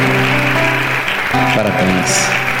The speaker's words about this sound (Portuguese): Venha, vamos aplaudir mais o Senhor Jesus. Venha. Parabéns. Venha.